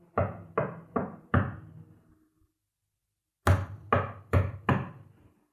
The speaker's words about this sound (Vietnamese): tiếng gõ lại bắt đầu vang lên